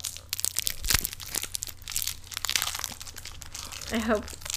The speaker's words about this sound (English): first we're going to give people a little ASMR of us opening this, because it's got the great crinkle.